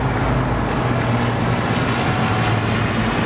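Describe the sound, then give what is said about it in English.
Steady, loud roar of an RAF flypast of 70 military aircraft, old and new, passing overhead during a Platinum Jubilee celebration, with a deep engine drone and broad rushing noise holding evenly throughout. “a 41-gun salute for the symbolic head of the armed forces. Before all eyes turned to the skies for an RAF flypast, 70 aircraft, old and new.”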